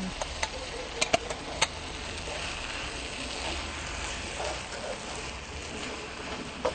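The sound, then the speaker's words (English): A rice dish being stirred and left to simmer in a pan gives a soft, steady sizzle with light scraping. A few sharp clinks sound near the start. “You make sure you mix it very thoroughly and then just let it simmer for a little while”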